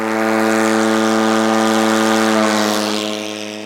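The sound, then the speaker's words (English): A drone aircraft takes off after launch from a trailer-mounted catapult: its propeller engine gives a loud, steady, buzzing drone that eases off slightly toward the end. “What you got to see here today was actually probably one of the smoothest takeoffs I've seen.”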